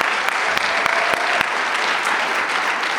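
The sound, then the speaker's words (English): Steady, dense applause from a church audience for the children's ministry workers, loud and continuous throughout with sharper individual claps standing out now and then. “Give our children's ministry workers a hand.”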